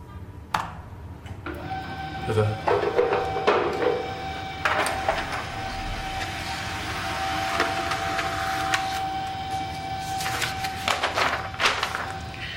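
A printer printing out a document, with a mechanical whir, a steady humming tone, and irregular clicks and knocks as the paper feeds.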